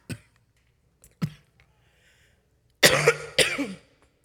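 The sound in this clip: Coughing from a tickle in the throat: a few short, faint coughs spaced apart, then two louder, harsh bursts close together near the end, with no talking.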